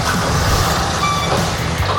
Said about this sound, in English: Well, why don't I get it off the trailer for you so we can take a good look at it.